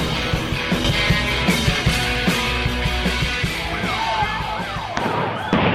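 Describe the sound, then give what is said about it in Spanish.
Rubber bullets being fired at protesters, heard as many sharp, irregular bangs and thumps over a constant roar of crowd noise, with raised voices rising briefly near the end. “¡No, ¡Cuidado, no! ¡Están tirando balas de goma, boluda! ¡No, no! ¡Cuidado, tiran balas de goma, boludo!”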